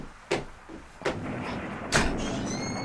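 A door being opened in a dramatized scene: three sharp thuds and clunks of the latch and door, heard alone over a faint background hiss.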